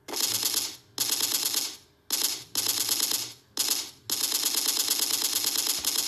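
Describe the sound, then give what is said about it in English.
Gun sound effects: bursts of rapid, rattling automatic-fire clatter, several loud volleys separated by brief gaps, with the final burst running longest. No voices. “I like sound effects, god damn it. Gun sound effects, apparently.”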